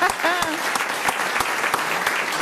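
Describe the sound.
Applause fills the whole clip as dense, steady clapping with a few sharper individual claps standing out. A voice is briefly heard at the start.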